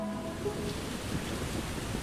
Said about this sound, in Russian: Дождь пошел сильнее.